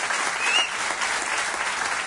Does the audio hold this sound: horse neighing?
no